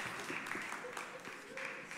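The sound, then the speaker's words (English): Faint audience applause after a volunteer's turn at a church talk, a soft, even wash of many claps with voices talking over it throughout. “All right, round of applause.”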